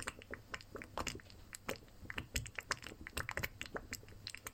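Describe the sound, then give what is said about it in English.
Chewing and biting sounds of someone eating stew: many short wet clicks and soft crunches in an irregular, busy rhythm, fairly quiet throughout, with no talk. “This is the ASMR of my stew.”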